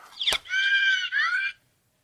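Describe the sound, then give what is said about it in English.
A voice imitates a handheld device boinking and squealing: a sharp click, then a high, sustained squealing tone that breaks briefly and resumes before cutting off. “playing with the handlink, making it boink and squeal”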